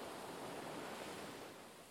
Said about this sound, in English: Feel the energy of the waves flow into you.